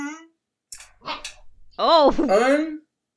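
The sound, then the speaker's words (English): Dogs barking: a few short barks and yips, then a longer, louder whining bark, mixed with talk. “Oh yeah, the dogs are getting in on this.”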